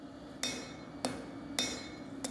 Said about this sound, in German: In seiner Werkstatt in Hannover-Dörren schmiedet er seine eigene Version eines der ältesten Werkzeuge der Menschheit.